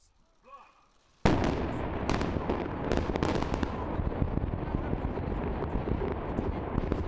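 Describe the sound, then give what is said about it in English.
Explosions destroy nuclear test tunnels in North Korea. After a brief voice, a sudden loud blast erupts into a sustained roaring rumble, with sharp crackles scattered through it before it settles to a steady level. “That was a sound of nuclear test tunnels being destroyed in North Korea on Thursday”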